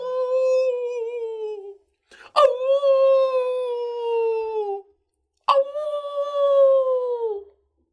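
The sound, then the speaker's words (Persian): A jackal howls on a rock in the moonlight, giving three long, sustained, high wailing howls. Each starts sharply, holds steady, and slides slightly downward at its end, with short silent gaps between them. “چرا خدای آنها در روشنایی ماه مثل یک شغال معمولی زوزه می کشد؟”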